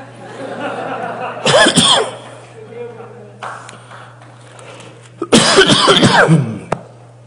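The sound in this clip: A preacher coughs and clears his throat during a sermon. Two loud, harsh bursts, the second longer, are separated by quieter throaty sounds over a low, constant hum.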